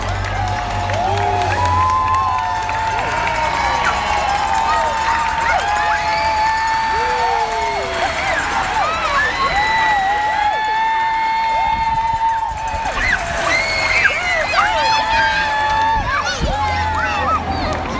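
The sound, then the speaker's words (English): A roadside crowd in Acworth cheers and whoops without pause as a professional cycling race peloton passes through, with shrill shouts and clapping sustained throughout. “The peloton is on the way down. Here's the noise, as you can hear from Acworth, as they celebrate the Tour de Yorkshire 2018.”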